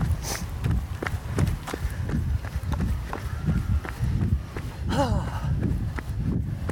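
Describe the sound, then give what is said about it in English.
Footfalls of people running slowly on a long run thud in a steady, even rhythm, low and dull, continuing without a break over a constant background rush. “Remember, this is a long run. You can run slow. I am running slow. Oh, not as slow as me. You gotta run my pace.”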